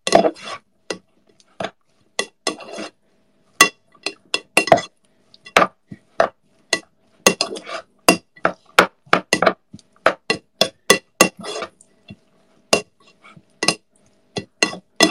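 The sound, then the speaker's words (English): Utensils clink and tap against a bowl as ingredients, including oil, are mixed together: many sharp, irregular metallic strikes with short silences between them and no talking. “Mix it all up. Mix it all up.”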